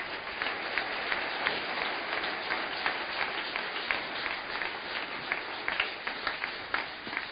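A church audience applauds in a steady patter of many hands clapping. The sound is moderately quiet and even, and no voices stand out.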